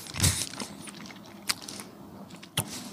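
Dry vegan biscuits being bitten and chewed: a loud crunching bite, then two more sharp, brittle crunches with quiet chewing between them, all fairly faint.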